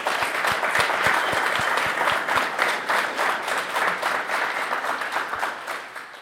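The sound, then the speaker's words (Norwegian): Audience applause welcoming two guests at a talk event: distinct individual claps ring out clearly early on within a dense, steady ovation that fades slightly toward the end. “velkommen til, og give dem lige en stor hånd”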